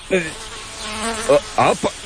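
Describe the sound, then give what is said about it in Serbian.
Flies buzzing around someone resting in the shade under an oak tree: a steady insect drone with a few louder, closer bursts of buzzing, with no voices present. “ove mi muve ne dadu mira”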